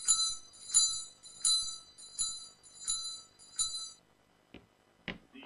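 A small bell rings to summon a servant in a household, six bright, high strokes in an even rhythm, followed by silence and two faint clicks.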